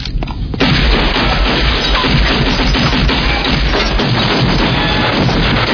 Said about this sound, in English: Gunfire? That's what it sounded like, sir.